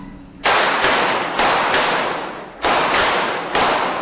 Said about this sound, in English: All right, everybody loaded? Shooter one ready. Shooter two ready. Part of that is looking to guns. Shooter to the chest, one to the head.